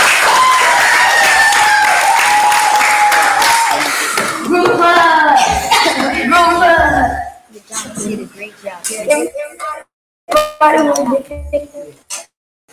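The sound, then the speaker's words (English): Applause and cheering from a gathered crowd congratulating a young man who has just passed. Dense clapping mixed with voices fills the opening seconds, then breaks up into intermittent talk and shouts. “Congrats, you passed. Give him a hand.”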